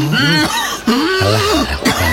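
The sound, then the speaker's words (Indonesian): Harsh, voiced coughing from a person whose illness is flaring up. A few loud, strained bursts come close together, with a throaty, tonal quality. “Batuk.”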